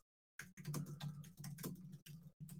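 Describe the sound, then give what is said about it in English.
Fingers pounding on a computer keyboard, a quiet patter of quick keystrokes coming in uneven bursts separated by brief pauses. “make sure I'm pounding on the keys so you guys can hear me”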